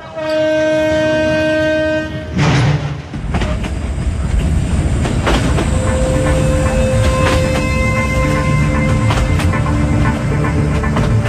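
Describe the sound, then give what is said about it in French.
A train horn sounds on a train on the Djibouti–Ethiopia railway, a sustained tone at the start, followed by loud, continuous rumbling and clattering from the wagons rolling along the track. “Le chemin de fer djibouto-éthiopien, ce qu'il en reste, c'est un train fameux, un train de légende du temps des jolies colonies.”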